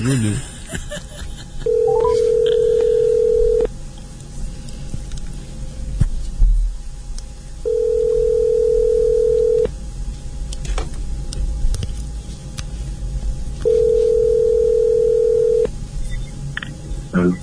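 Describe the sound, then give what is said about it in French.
Ringing tone of an outgoing telephone call: three long, steady mid-pitched tones of about two seconds each, separated by longer pauses, over faint background noise. “C'est bon, j'appelle.”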